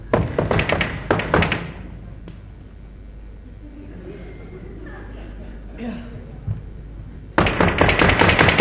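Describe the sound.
Knocking on a door that will not open: a quick series of sharp raps at the start, then a quieter stretch with faint talk, then another loud burst of knocks at the end.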